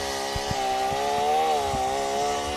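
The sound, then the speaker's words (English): An MS-21 chainsaw with a dull, sloppy chain cutting wood out of the way, a loud steady engine drone with a slightly wavering pitch and faint irregular knocks underneath. “So here goes the chainsaw. We're going to cut this out of the way”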